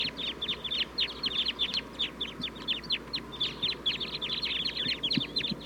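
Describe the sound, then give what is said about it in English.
A flock of birds calls from a tree, producing many quick, high, sharp chirps in dense overlapping bursts, steady throughout at a moderate level over a faint low rumble. “Mainly pointed at the flock in the tree. Calling.”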